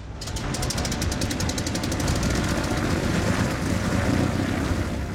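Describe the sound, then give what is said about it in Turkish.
Airplane engine of a heavily loaded plane roaring loudly and steadily, a dense broad rumble with a rapid pulsing rattle at the very start. “Bu uçak epey ağır. Hadi bebeğim.”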